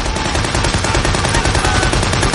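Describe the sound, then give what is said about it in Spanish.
Gunfire from a bell tower during a World War II battle scene in a war film: a loud, dense, continuous crackle of overlapping shots with no pauses, over a rumbling battle din. “El artificiero acciona el detonador. Jackson dispara desde el campanario.”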